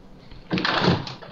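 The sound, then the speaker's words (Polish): A window being opened gives a short scraping, rustling burst of about half a second that rises out of near silence and then fades away. “No i byłem właśnie w domu tam popatrzeć otwórz, na swojego. Weź, otwórz okno.”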